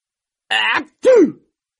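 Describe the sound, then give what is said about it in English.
A voice imitates a dog sneezing with two short, loud voiced bursts: a steady first syllable, a brief pause, then a second burst that bends up and falls away. “This time, Ralph sneezes, and the other dog sneezes too.”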